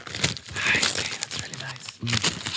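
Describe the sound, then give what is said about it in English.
Gift wrapping paper is torn open and crinkled during a Christmas gift exchange: dense, papery rustling and ripping runs almost throughout, with a brief lull near the end before a final burst, and short voices mixed in. “Just rip it. Just rip it. I'm doing ASMR.”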